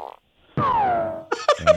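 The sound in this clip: A fart sound effect: one drawn-out buzzy tone lasting most of a second, sliding steadily downward in pitch. A few short, choppy grunting bursts follow it.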